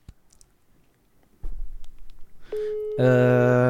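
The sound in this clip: Telephone ringing tone as someone is called live on speakerphone: scattered handling clicks and a thump, a short steady tone, then a loud, buzzy ringing tone that runs to the end.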